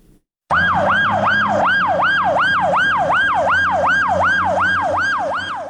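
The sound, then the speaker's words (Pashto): An ambulance siren outside an emergency hospital, where ambulances bring in the wounded: a loud electronic wail that sweeps rapidly up and down in a fast, regular cycle, repeating many times without a pause. “د لشکرګاه د ایمرجنسی روغتون مخې ته د 4 امبولانس ته چې هر یوې په نوبت ټپیان راوړي.”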